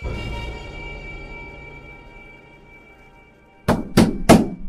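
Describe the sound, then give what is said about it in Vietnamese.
Three rapid, loud knocks on a gate door land in quick, even succession after a stretch of low, steady hum. “Ba tiếng gõ cửa dồn dập vọng ra từ ngoài cổng”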